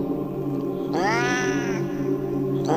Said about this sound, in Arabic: في الأول بدأت تصرخ صرخات القطط العادية، لكن بعد كده الصرخات اتحولت وبدأت الشنطة طالع منها صوت القطط اللي يخوف